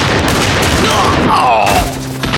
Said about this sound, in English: The outlaw opened fire, as did several of the other outlaws